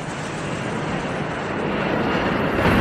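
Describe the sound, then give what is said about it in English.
Airbus airliner passing low over a backyard just beyond the runway fence. Its broad, rushing engine roar is steady and grows slightly louder toward the end. “Airbus, Brisbane via Sydney. How close are you to the end of the runway? Oh, just over the fence. Is that the runway there? Yeah.”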